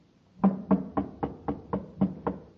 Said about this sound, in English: He knocks at a door.